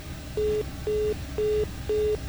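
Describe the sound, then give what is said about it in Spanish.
Telephone tone after a dropped call: four evenly spaced, steady mid-pitched beeps, each about a quarter second long, with short silent gaps between them. “Bueno, perdimos ahí esta llamada”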